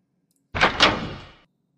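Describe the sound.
A door shuts with a short double thud, two quick impacts close together that decay quickly into quiet, with no voices.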